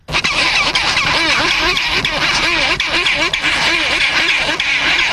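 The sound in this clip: Chinstrap penguins squabbling fiercely over nest sites in an Antarctic colony: loud, harsh, braying calls that overlap continuously in a dense, ragged chorus.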